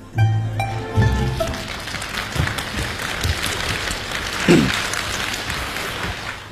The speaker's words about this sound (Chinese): 从大家的掌声当中看来，对他们这种创新还是比较认可。